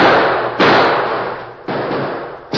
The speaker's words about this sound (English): Who'd be shooting at us?